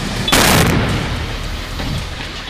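An explosion of tanks in poor condition on a pickup truck: one loud, sharp blast just after the start, followed by a long, rumbling decay that fades gradually over the remaining two seconds.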